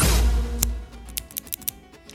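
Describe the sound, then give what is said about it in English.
A cigar cutter clips a Rocky Patel Edge Light cigar with a Connecticut wrapper: one sharp snap, then a few lighter, quick clicks after a low rumble fades out at the start. “Beautiful, perfect cut on this Rocky Patel edge Light Connecticut battalion.”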